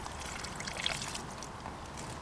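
Fresh water poured over a large caught fish lying in a tub-shaped unhooking cradle mat, a steady splashing, trickling wash at moderate level that runs throughout.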